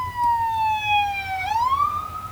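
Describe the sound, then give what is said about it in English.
An ambulance siren passes by in one long wailing tone that slowly sinks in pitch and then sweeps back up, loud and steady, over a low rumble of traffic. “So, ambulance.”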